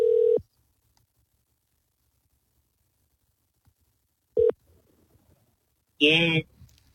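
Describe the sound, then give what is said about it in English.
An outgoing telephone call ringing out: two short, steady ringback tones about four seconds apart against silence, then a voice comes on the line at the end. “So let's call her back and let's get clarification what it was. So let's see if she answers.”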